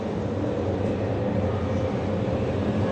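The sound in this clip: A train starts to move, heard from inside an empty passenger compartment as a steady, dense low rumble that stays even and continuous throughout.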